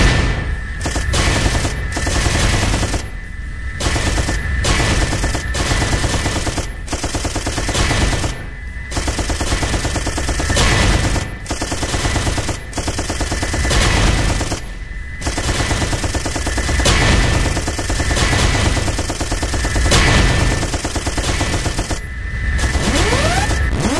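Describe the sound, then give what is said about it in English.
Rapid video game gunfire shooting down rockets, dense machine-gun-like bursts almost without pause, loud, with brief gaps and a steady high tone running underneath. “Your final score is 391 points. You're pretty good at shooting the rockets down.”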